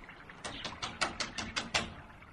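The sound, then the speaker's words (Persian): Hurried knocking on a door as a frightened rabbit reaches the bear's house in a children's story: a quick, even run of light, sharp raps, fairly faint. “آقا خرگوشه که خیلی ترسیده بود به سرعت به طرف خونه آقا خرسه به راه افتاد و با عجله خودش رو به اونجا رسوند و در زد.”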